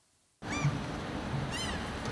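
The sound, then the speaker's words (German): Seagulls calling at an inland harbour: two faint, high cries over a steady outdoor hiss that begins abruptly after a moment of silence. “Noch singen hier im Harburger Binnenhafen nur die Möwen.”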